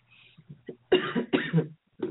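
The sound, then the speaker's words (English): A person with a lingering cough and strained vocal cords coughs: a few soft, throaty bursts come first, then two loud, harsh coughs close together, a short pause, and another cough starting at the end. “I'm still getting over my strained vocal cords and my cough.”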